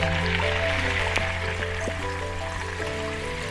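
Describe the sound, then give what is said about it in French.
Sea ice in the frozen fjord at Ilulissat, Greenland, gives a steady, layered tonal drone threaded with trickling, water-like textures and a few faint, scattered clicks. “Un son de glace de mer que j'ai enregistré au Groenland, il y a un long moment déjà, au moins une décennie. Et plus exactement, un son enregistré dans le fjord gelé d'Ilulissat.”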